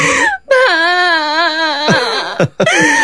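Loud, wavering wail of a crying child, one long sobbing cry with a trembling pitch, broken by brief gasps and short catches of breath.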